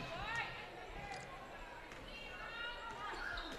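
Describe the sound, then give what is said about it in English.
A basketball is dribbled on the court during a Southern Wells game against the Rocks. Faint bounces sit under crowd noise and voices throughout. “It's Yancer on the dribble into the front court against a 2-3 zone of the Rocks.”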